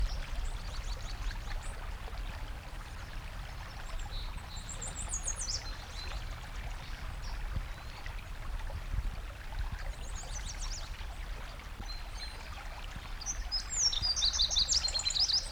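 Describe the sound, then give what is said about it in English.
Fox sparrow song, faint high warbled phrases repeating a few times over a steady rushing, water-like background noise, with the last phrases slightly louder and more complex. “fox sparrow number one.”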